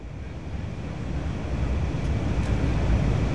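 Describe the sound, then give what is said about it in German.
An airplane taxiing slowly toward the runway gives a steady, low rumbling drone with broad hiss, growing gradually louder across the whole stretch. “Jetzt rollen wir langsam zur Startbahn.”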